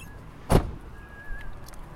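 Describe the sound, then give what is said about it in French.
A car door thuds shut as someone gets out of a car, one short solid knock followed by a faint thin hum and quiet surroundings. “Aujourd'hui, deuxième épisode, on descend de la voiture.”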